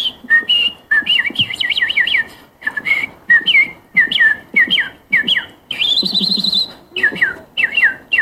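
A person at a bird-imitation contest whistles the song of a thrush nightingale: loud, clear, high chirps and rapid trills come in many short repeated phrases separated by brief pauses, with no talking over them.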